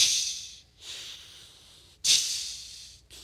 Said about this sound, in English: Anybody ever heard an oxygen machine, you know? Anybody ever heard one?